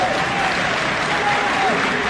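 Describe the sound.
Audience applause fills a stage comedy performance as a dense, steady wash of clapping that holds an even loudness throughout without clear breaks.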